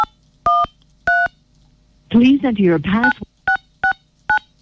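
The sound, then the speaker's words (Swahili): Telephone keypad DTMF tones dial a USSD code, star 821 hash: five short, crisp beeps, two before a stretch of someone talking and three after. “Star 821 hash. Right now umesikia namba inachaguliwa tu hapa.”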